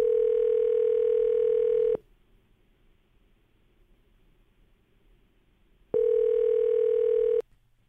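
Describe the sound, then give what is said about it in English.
Ringing on an outgoing telephone call while waiting for someone to pick up: two long, steady, even-pitched ring tones, each lasting about two seconds and separated by a longer quiet gap, with no talk. “We're going to finish dialing Rachel's number here, see if she'll pick up, okay?”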